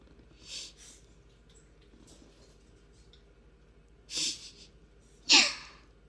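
Sniffling and crying with sharp, breathy inhalations: a softer sniff early on, then after a quiet pause two louder, abrupt intakes of breath close together near the end.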